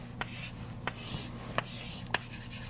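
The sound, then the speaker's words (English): Diagrams being drawn by hand during a maths lecture give faint, scratchy rubbing strokes broken by four sharp little taps, over a low steady hum. “So let me draw a few of them.”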